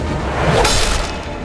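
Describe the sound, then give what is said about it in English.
A sword blow splintering a wooden staff in a fight, heard as a swift whoosh into a single sharp cracking impact over a steady background. “He threw himself in front of the blade, holding his staff up to block it.”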